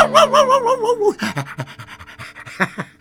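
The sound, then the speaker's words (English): A dog pants in quick, steady, rhythmic breaths, loud and continuous throughout. “Oh, doggy, you gotta love a dog, you know.”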